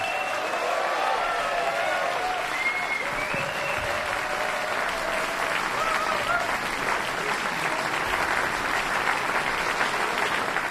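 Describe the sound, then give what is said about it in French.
Sustained, dense audience applause after a jazz duo concert in the Salle Paderewski of a Lausanne casino. It stays steady and even throughout with no break. “Le public en délire de la salle Paderewski au casino de Montmenon à Lausanne.”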